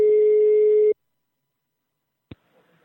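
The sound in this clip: A telephone tone as a call is placed: one steady, mid-pitched tone lasting about a second, then silence and a single sharp click.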